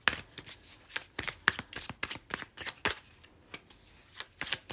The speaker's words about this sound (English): And then I'm going to pull some tea leaf tarot or tea leaf oracle cards.